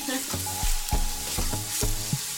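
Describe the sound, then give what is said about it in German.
Onions fry in butter in a pan while a 17th-century recipe is cooked, giving a steady sizzle broken by a few sharp clattering knocks as the food is stirred. “Man merkt jetzt auch, dass es anfängt so fein schmecken nach angebratenen Zwiebeln und Butter.”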